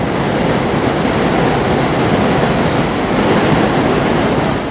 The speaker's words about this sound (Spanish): Como se puede notar, estamos debajo del Tren 7.